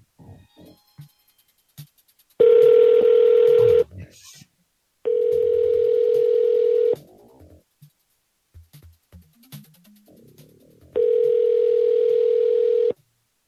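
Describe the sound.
Telephone dial tones during a call back: three long, loud, steady tones, each lasting about one and a half to two seconds, separated by brief stretches of voices and small sounds.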